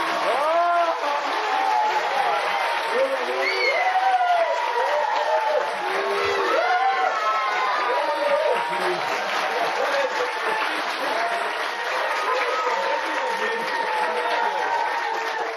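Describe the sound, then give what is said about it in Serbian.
Audience applause and cheering for a singer at a show, a dense, steady wash of clapping with many raised voices calling out on top, holding at an even loudness throughout. “E sad čujemo aplauz oni koji vole Svetlanu Cecu Bojković. Ajde čujemo.”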